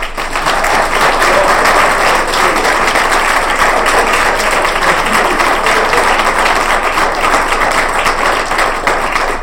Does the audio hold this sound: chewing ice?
no